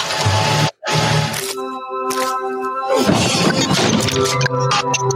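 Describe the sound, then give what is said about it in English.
Computers and a monitor strapped to the front of a Hummer are smashed to pieces, a loud, continuous crunching and shattering roar with a steady tonal hum running through it and one brief drop near the start. “I have a ton of computers and a monitor strapped to the front of this Hummer, and I'm about to smash them to pieces.”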